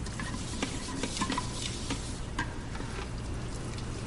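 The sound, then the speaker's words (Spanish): Scrubbing of a strainer with a scouring pad in a prison scene: a steady, rough scraping hiss with a few faint clicks scattered through it, and no voices. “Huidobro lava un escurridor con un estropajo.”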